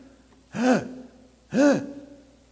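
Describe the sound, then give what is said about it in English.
A voice imitates someone gasping for breath because they couldn't breathe deeply: two sharp, breathy inhaled gasps about a second apart, heard alone and fairly loud. “I couldn't breathe deep. I was gasping. I was going,”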